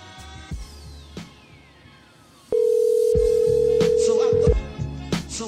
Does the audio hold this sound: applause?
no

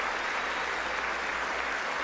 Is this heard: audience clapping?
yes

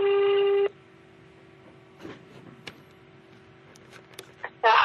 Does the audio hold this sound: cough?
no

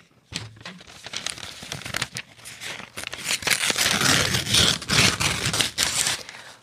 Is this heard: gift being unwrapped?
yes

